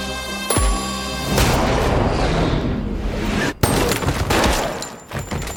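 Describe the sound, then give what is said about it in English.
Loud gunfire mixed with booming blasts: a sharp shot at the start, then a sustained dense roar of shots and impacts, another sharp crack partway through, and a few scattered bursts as it thins out. “Fine, I'm just gonna shoot him in the leg.”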